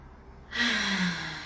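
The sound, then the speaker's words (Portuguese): A deep breath in that fills the lungs during a guided relaxation exercise: one long, rushing inhalation that swells after a short quiet start and holds steady to the end, with no talk. “Então respira bem fundo, mais uma vez enchendo todo o pulmão.”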